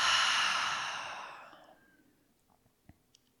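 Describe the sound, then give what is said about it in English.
Deep breath exhaled through an open mouth during a guided meditation, an airy sigh-like rush that starts strong and fades away over about a second and a half, followed by near silence with a few faint clicks. “So deep, full breath in through the nose. Open the mouth, exhale it out.”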